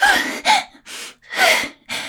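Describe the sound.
Forceful exhaled breaths turn into voice: five breathy bursts in quick succession, some carrying a faint vocal tone.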